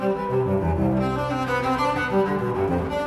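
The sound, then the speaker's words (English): Solo cello plays a piece by Bach in a continuous, flowing line of notes. The warm, resonant tone stays at an even, moderate level throughout, with no pauses. “A composer named Bach liked the cello so much that he wrote this piece of music for it.”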